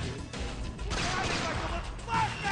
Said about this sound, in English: Flashbang? Oh, he dropped it right at your feet. Oh! Martyrdom does not work with a flash, though. It does. It's just minor annoyance to Sam Fisher.